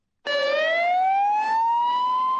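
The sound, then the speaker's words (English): An emergency vehicle siren wails in Madrid as responders arrive after deadly terrorist bomb explosions on trains. A single loud, continuous tone rises slowly and steadily in pitch across the whole clip. “That's the sound of emergency vehicles arriving at one of several locations throughout the capital of Spain today, following a series of deadly explosions.”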